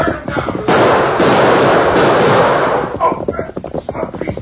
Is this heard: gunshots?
yes